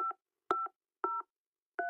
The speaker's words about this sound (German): The number you dialed is temporarily unavailable.